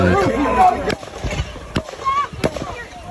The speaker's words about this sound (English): Those three, fairly muffled, you know, muted, let's say, to some extent. I mean, there are obviously obvious gunshots that people could hear in the area.